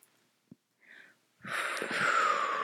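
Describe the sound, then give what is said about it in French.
Slow, breathy exhalation during an ASMR-style breathing exercise. After a few faint sounds, a soft airy hiss swells in and holds steadily to the end. “on expire”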